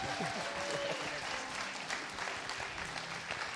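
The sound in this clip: A church audience at Temple Baptist Church applauds to welcome a preacher before a morning sermon: continuous, even clapping from many hands at a moderate level throughout.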